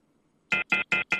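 A telephone rings for an incoming call, four short, high-pitched electronic bursts at an even, quick rhythm, loud and alone after a faint hum.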